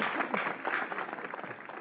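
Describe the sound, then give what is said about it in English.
A short round of clapping comes from a few people on a group call. It sounds thin and muffled, with rapid uneven claps that soften toward the end. “A round of applause for the ladies of thyroid Heck cancer.”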